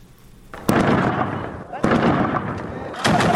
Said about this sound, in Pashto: دا په زابل مرکز کلات کې د افغان ځواکونو او وسلوالو طالبانو ترمنځ د جګړې ډزې دي.